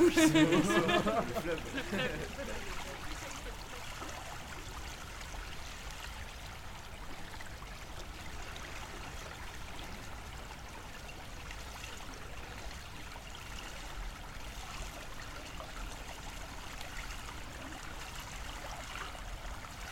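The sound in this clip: The Isère river flowing past: a steady, broad rush of water that holds level for the whole stretch, with a voice heard briefly at the start.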